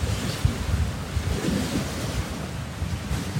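Waves of Lake Superior (Kichigami) roll and break in a continuous rushing surf, with steady wind noise buffeting the microphone and no voices.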